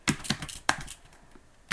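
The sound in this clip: A few keystrokes on a computer keyboard as a greeting is typed: crisp, irregular clicks with a short gap before a final tap, heard alone without any voices.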